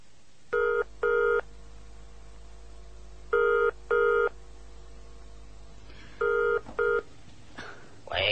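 Ringback tone from a telephone call placed to a funeral home: three pairs of short, bright double rings with steady pauses between them over a constant low hum. No voices are heard.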